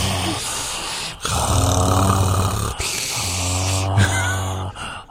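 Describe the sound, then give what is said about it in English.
Heavy breaths drawn through a person's mouth, rasping and voiced almost like snoring, come as a few long, loud strokes separated by brief gaps. “I'm going to breathe really heavily through my mouth this whole time.”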